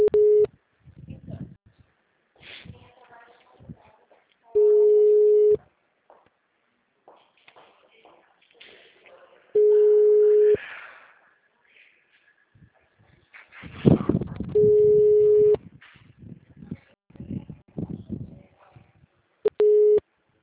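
An unanswered phone call gives a ringback tone: five steady, identical beeps spaced about five seconds apart, with faint rustling and shuffling noises between them.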